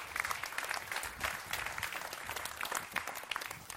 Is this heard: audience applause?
yes

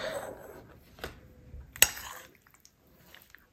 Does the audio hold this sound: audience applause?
no

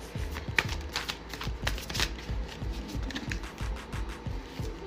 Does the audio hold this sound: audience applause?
no

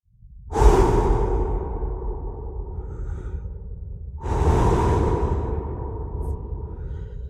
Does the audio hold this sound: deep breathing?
yes

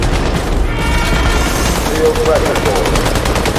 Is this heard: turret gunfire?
yes

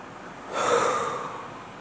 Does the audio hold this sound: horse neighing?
no

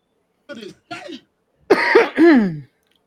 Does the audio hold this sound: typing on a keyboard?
no

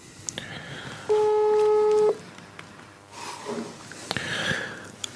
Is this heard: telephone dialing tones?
yes

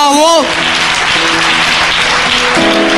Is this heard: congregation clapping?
yes

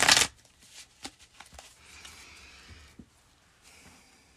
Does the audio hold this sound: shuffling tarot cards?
yes

